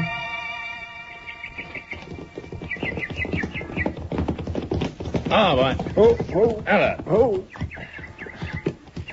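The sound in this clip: Horses clip-clop as riders set off together, with a run of quick hoof beats under voices and other sounds that grow louder toward the middle and end.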